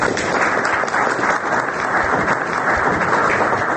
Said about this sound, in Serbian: aplauz od učesnika rasprave nazvane Republika Srbija i Republika Srpska, stari i novi politički izazovi